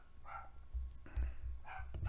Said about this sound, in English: If you could hear my dog barking